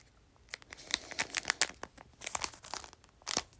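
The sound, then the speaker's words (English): Plastic packaging being torn and pulled open by hand, heard as many sharp crinkling, crunching rips in uneven bursts, some loud, with short pauses between. “I'm hurting my fingers. I can't get it open. Hold on. We're getting there.”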